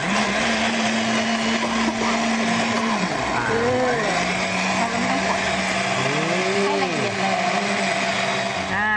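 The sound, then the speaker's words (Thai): A blender whirs loudly and steadily while blending 500 grams of soybeans with 4 liters of water for soy milk, its motor droning without break as people talk over it. “เราชั่งจากแห้งๆก่อนนะคะ500กรัมแล้วก็ใช้น้ำ4ลิตร ค่ะ ครับปั่นเลยไหมครับอาจารย ์ปั่นเลยค่ะ ปั่นแรงเลยนะครับ”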